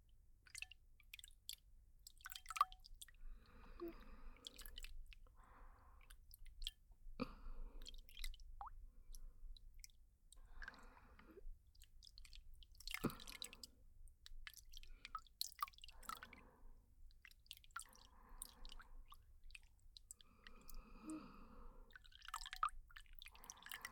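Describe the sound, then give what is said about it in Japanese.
Water drips and squishes as a hand is rinsed after a massage to wash off applied serum. Many soft, wet splashes and drips come in an uneven rhythm, quiet throughout, with no talking. “マッサージが終了しましたので、美容液を塗っておいたこちらの手を洗い流していきます。”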